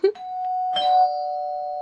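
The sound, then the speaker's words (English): A doorbell chimes twice: a first strike gives way to a sustained tone, then a second, brighter ding rings out in a long, slowly fading note. “that's the doorbell, which means Pizza from the Dead is here”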